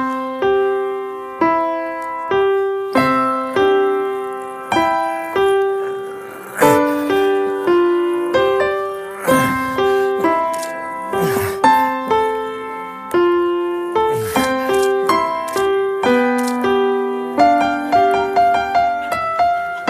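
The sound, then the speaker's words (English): A seven-year-old child playing the piano, plunking a melody of many separate notes and occasional chords in an uneven, halting rhythm with brief pauses between phrases. “One is I want to remind you of what a 7-year-old child sounds like when he plays the piano.”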